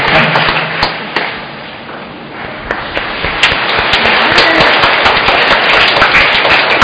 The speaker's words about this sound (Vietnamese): Cùng đặt cho cha vỗ tay cảm ơn cha.